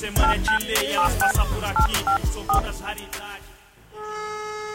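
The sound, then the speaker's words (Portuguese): Telephone keypad tones sound as someone dials a call: a quick run of short electronic beeps over heavy thumping hits, then a steady held tone. “Vou ligar uma mina ali, eu te coloco o que tá acontecendo.”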